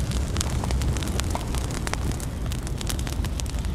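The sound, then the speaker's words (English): A wildfire burns through dry vines and small saplings with dense, loud crackling and popping over a continuous rushing roar that stays steady in level, with no voices. “and then it hits a patch of dry vines. The fire's doing everything Smokey Bear told you it shouldn't.”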